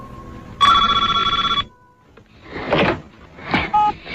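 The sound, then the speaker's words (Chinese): A home telephone rings in one short burst of rapid, warbling bell-like trill, followed by a few soft clattering and rustling noises. “独自在家的西德尼接到了凶手的电话”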